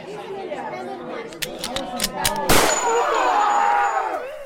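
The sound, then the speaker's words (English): A gunshot recording played from a phone gives one sharp, loud crack partway through, amid a crowd of people chattering before and after it. “I don't like guns. To tell the truth, they scare me. They smell of metal and oil, and I think that's pretty gross. That's why I decided to use this recording of a gunshot that I have saved to my phone”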